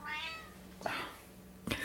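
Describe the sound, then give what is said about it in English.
A cat meows a few times: a drawn-out, tonal meow followed by two shorter calls, all faint and with no talk over them. “Apologies for the cat.”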